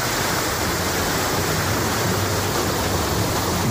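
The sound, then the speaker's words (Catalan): Continuous roar of a waterfall about 20 metres high on the river Ges in high water, a dense, steady rushing wash of falling water with no breaks or voices. “El salt del Molí de Salgueda, que és una cascada d'uns 20 metres d'alçada que, en dies de molta aigua, sona així, escolteu.”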